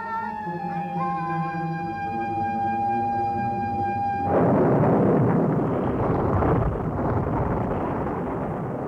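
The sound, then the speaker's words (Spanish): Thunder and the roar of huge waves in a night storm at sea around a drifting raft, bursting in loud and dense after about four seconds of a steady, sustained harmonic musical tone, then rumbling heavily to the end. “En la profunda negrura de la noche se ha desencadenado una tormenta. La balsa y el náufrago están a merced de las enormes olas.”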